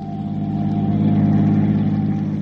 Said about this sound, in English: Anyway, I was driving her home.